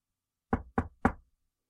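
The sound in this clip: Three firm knocks on a door, evenly spaced, each a short, sharp thud that fades quickly, with silence before and after.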